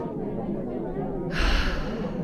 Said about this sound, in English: All right, everyone with me, take a deep breath.